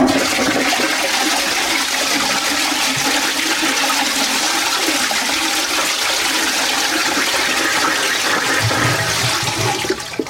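A toilet flushing in a small toilet room: a steady, loud rush of water that runs almost unchanged for about ten seconds and then cuts off abruptly.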